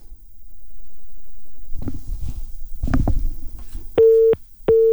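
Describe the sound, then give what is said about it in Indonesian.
A telephone busy tone sounds after a call drops during a live phone report. Two steady mid-pitched beeps follow a stretch of low rumbling and muffled noise on the line. “Ya, nampaknya terputus pendengar. Nah, kita coba hubungi kembali.”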